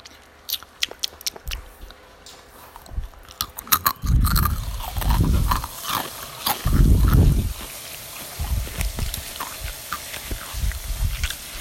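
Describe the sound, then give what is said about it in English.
Crunching and chewing of the last bite of Takis rolled tortilla chips, with many crisp, irregular crunches that grow louder and denser midway before settling into softer mouth sounds. “Last bite, guys. ASMR time.”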